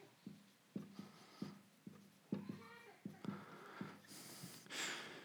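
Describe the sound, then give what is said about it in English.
A marker writes on a board as a preacher adds the last item to a list: a run of short, scratchy strokes with faint squeaky tones, followed by a couple of broader rasping swipes near the end. “I'll go ahead and write the last one.”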